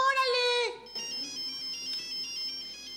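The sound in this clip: A telephone rings with a loud electronic ringtone in a bright, harmonic burst, then continues as a thinner, higher-pitched repeating tone.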